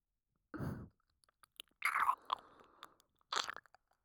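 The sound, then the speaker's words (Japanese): Wet ASMR ear-licking mouth sounds, soft and close, come in three main bursts of smacking, slurping noise separated by quiet gaps and small scattered clicks, with no talk. “というわけで、私、黙ってお耳を舐めさせていただきますね。”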